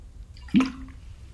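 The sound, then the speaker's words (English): A single quick sip of water: one short, faint, wet slurp standing alone in near silence. “Sorry, I'm going to take a sip of water, and you know you're going to have to hear a second.”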